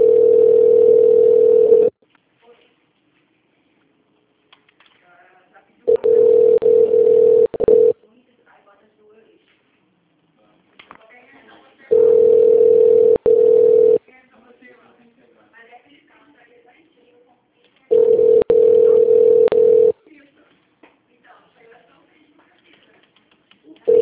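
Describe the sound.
A telephone ringback tone plays while a call connects to a company extension: four steady buzzing tone bursts of about two seconds each, separated by longer silent gaps with faint low noise between them.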